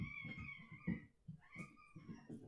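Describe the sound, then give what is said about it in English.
Cats fighting: faint, drawn-out yowls and caterwauls with a short gap between two long, wavering cries, over low rumbling growls. “what you're hearing are my cats engaging in what I would compare to the lightsaber duel on Mustafar.”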